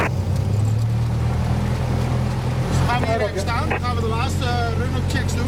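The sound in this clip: Small aircraft engine idling while the plane taxis toward the runway, a steady low droning hum throughout, with people talking over it from midway.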